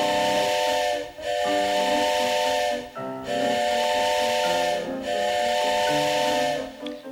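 A steam train whistle sounds in long, loud chord-like blasts, several sustained tones repeated with brief breaks between them, over a steady hiss of steam and no talk.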